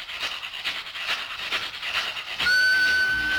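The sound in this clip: A train imitation played on a bottle-gourd percussion instrument with bells: a run of rhythmic, breathy chuffing pulses, then a sudden steady, high, whistle-like tone that holds to the end.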